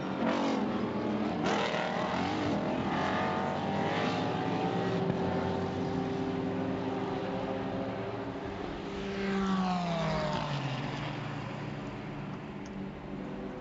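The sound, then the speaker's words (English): Race cars, including an Aston Martin and a BMW, racing at VIR in a 2020 Michelin Pilot Challenge sports car race: a steady, loud engine drone, with one car passing and its pitch falling toward the end. “So Nate Stacey, in that core motorsports Aston Martin, is homing in on the race-leading Turner Motorsport BMW of Robbie Foley.”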